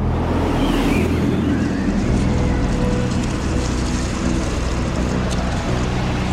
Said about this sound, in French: des vents violents remontent du golfe de Gascogne et la mer se déchaîne sur la coque du navire.